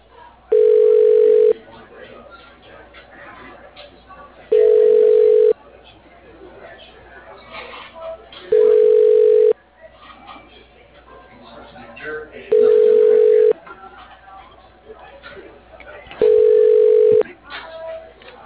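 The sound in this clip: A telephone line rings while a call is transferred to an office extension, with five loud, steady, evenly spaced tone bursts of about a second each over a low murmur of background noise.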